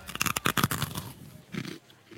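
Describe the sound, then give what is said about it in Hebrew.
Crisp crunching of a strawberry crunch snack made by a special method: a quick run of sharp, dry crunches packed into the first second, fading into softer chewing, then a few more crunches a moment later. “אני אוכל טוט עכשיו, כן? שתבין. וואו. שמעת את הקראנץ'? זה טוט.”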